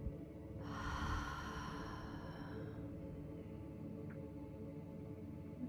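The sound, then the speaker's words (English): One long, soft breath is drawn in through the nose and let out through the mouth as a cleansing breath in a guided meditation, over a steady low hum that continues after it. “We'll just take one more cleansing breath in through the nose, out through the mouth.”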